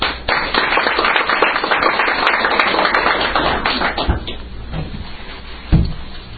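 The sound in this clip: Applause welcomes a guest speaker to the stage. Dense, brisk clapping fills the first few seconds, then thins and fades, and a couple of low thumps follow.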